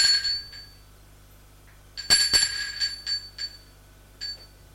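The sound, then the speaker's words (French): A doorbell ringing: bright, metallic ringing tones. A faint ring is followed by a louder burst in the middle and then a few shorter rings that fade, over a low steady hum. “Il va vers la porte. Hésite. Puis, sonne.”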